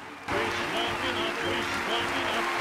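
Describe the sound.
Applause for a theatre performance in an audio drama bursts in abruptly after a brief quiet moment, then continues as dense, steady clapping at an even level to the end.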